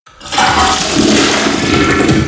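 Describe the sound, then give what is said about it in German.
A toilet that is not draining properly is flushed: a loud, continuous rush of water starts abruptly and holds a steady roar for about two seconds, heard alone. “die Toiletten läuft nicht ab”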